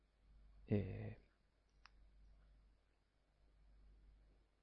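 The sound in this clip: A mouse click as the OK button is pressed on a computer screen: a short, sharp tick over a steady low hum, with no talk.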